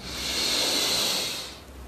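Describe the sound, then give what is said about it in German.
A deep breath taken during a guided breathing exercise makes a single long, airy hiss that swells, holds and fades over about a second and a half, with no talk. “einen tiefen Atemzug zu holen. Und beim Ausatmen kannst du dann die Augen schließen. Wir atmen ein”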